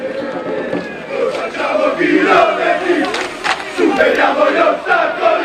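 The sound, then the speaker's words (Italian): A group of football fans in a stadium chanting and shouting together, a loud, continuous mass of voices that swells and dips without a break. “andiamo a vedere proprio il gruppo di tifosi che vi stavamo già citando poc'anzi.”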